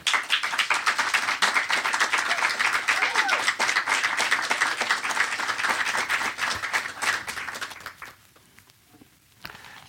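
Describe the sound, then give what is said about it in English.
An audience applauds as a novelist is welcomed to the stage to give a lecture: dense, steady clapping lasts about eight seconds, then thins to a few scattered claps and stops. “So please lend a hand in welcoming to the stage Masande Ntshanga.”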